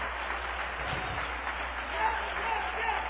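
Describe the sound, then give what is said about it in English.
Congregation clapping hands to the Lord during a church service, a dense, steady wash of many hands with voices mixed in throughout. “Let's clap our hands to the Lord tonight.”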